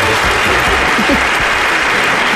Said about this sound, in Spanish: Otra vez, dos aplausos, muy bien.